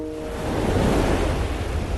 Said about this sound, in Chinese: 起风了，赶紧撤。